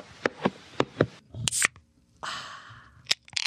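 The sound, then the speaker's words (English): A can of sugar-free caffeinated soda being opened: a few light taps and handling noises, then a sharp crack followed by a brief hissing fizz, and a few more clicks. “That's the sound of a caffeinated beverage without sugar.”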